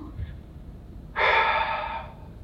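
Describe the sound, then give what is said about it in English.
A deep exhale taken during a guided prayer: one long, breathy rush of air lasting about a second that tapers off gently, with no talk over it. “So let's exhale.”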